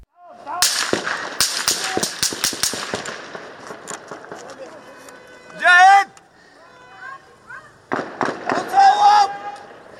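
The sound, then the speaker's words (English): Gunshots are fired toward a news team: a rapid volley of sharp, loud cracks, then a lull with a voice, then another cluster of shots near the end. “Then more shots ring out in the direction of the news team, pinning them down.”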